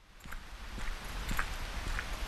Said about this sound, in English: I've been finding a little exercise and a little peace walking the trails of Clark Reservation here in Jamesville, within a 15-minute drive of downtown Syracuse.